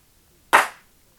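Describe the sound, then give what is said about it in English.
A single sharp hand clap, type C of a numbered set of hand-clap sound effects. It rings out once, crisp and bright, and decays quickly into silence. “Number 44. Hand claps. Type C.”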